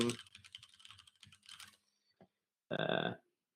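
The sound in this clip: Typing on a computer keyboard: a rapid, irregular run of light clicking keystrokes, followed after a short pause by a brief louder burst.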